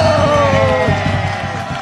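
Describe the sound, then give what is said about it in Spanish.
An audience cheering and applauding for the female radio presenters: loud, steady crowd noise with a whooping voice on top, easing slightly toward the end. “¡Un aplauso para ellas!”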